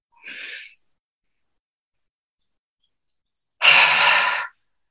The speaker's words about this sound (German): Tief und lange aus. Einatmen.